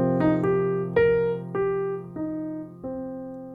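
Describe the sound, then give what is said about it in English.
A rising then falling arpeggio in eighth notes: six bright, ringing notes climb and descend over a sustained low tone, each decaying before the next, played alone. “So ascending, descending arpeggio sounds like this.”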